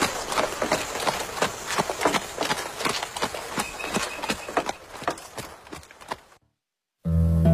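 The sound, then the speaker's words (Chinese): Galloping hooves of cavalry riding off with a carriage, a rapid, loud, rhythmic pounding that gradually fades out and drops to silence before a different sound cuts in at the very end. “糯敏微笑着邀请宝英和包启立坐上马车，然后一起跟着这帮突然到来的骑兵疾驰而去。”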